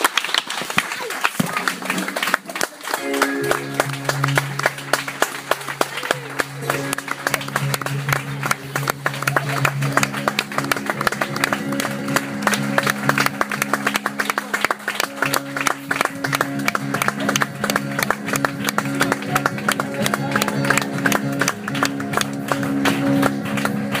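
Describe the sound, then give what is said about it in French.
Standing ovation applause at a religious service welcoming a prophet: dense, continuous clapping that runs the whole time at an even level, with sustained musical tones underneath. “Standing ovation.”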